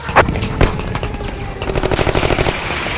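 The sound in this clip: Gunfire during an attack: two sharp single shots, then a rapid, loud machine-gun burst of many rounds in quick succession, with no voices.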